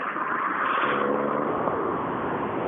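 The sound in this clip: A rally car comes in with a broad, steady engine roar that swells slightly early on and then holds constant. No voices are heard.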